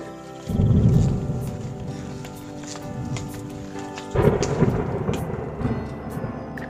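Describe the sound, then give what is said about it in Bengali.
Loud thunder rumbles through a rainstorm: a heavy low roar swells in near the start, eases into a steady rumble, then a second strong surge breaks out partway through before slowly fading. “মেঘটা আরো বেশ জোরে ডাকছে এবার”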